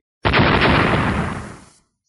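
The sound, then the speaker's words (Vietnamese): An explosive blast from two magic treasures clashing, a jade umbrella with a cold nature against a pillar of fire. It erupts suddenly into a loud, broad roar that holds briefly, then fades away. “Một trận âm thanh bạo liệt nổ ra”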